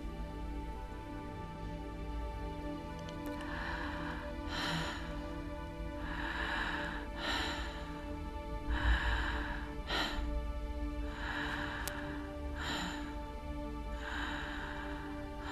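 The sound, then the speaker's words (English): Quick, shallow breaths drawn into the back of the throat during a meditation, a faint, repeated airy rasp in a steady rhythm over a low constant hum. “taking really small breaths into the back of the throat, just like a little tiny baby.”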